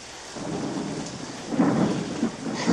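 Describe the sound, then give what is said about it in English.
Pouring rain, heard from a porch, falls in a dense, steady hiss. It grows louder in the second half with low, rumbling surges like thunder. “Leo stares out at the pouring rain”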